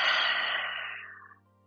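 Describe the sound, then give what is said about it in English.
A deep breath ends in a slow exhale, a soft, airy rush that fades steadily to nothing over about a second and a half above a faint, steady low hum. “So let's just take a deep breath in through our nose. And now exhale.”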